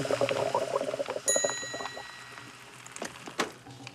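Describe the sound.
A food hydrator machine rehydrating a pizza: a bright electronic ding with a lingering tonal ring, set among a busy mix of soft clicks, whirring and short mechanical clatters.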